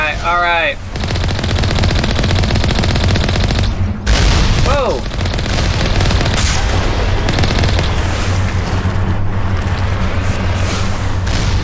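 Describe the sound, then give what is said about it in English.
Rapid gunfire from someone shooting, dense automatic bursts merging into a continuous loud barrage that hardly lets up, with a couple of brief voice-like cries breaking through the noise. “Thought I heard someone still shooting at us.”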